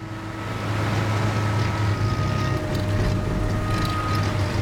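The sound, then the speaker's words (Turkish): A tugboat engine with a clogged fuel filter drones in a steady, loud, low rumble that is even and continuous throughout, with no voices. “Sen de duydun mu? Motor tekliyor. Şu lanet olası yakıt filtresi yüzünden. Motorun devri düşüyor.”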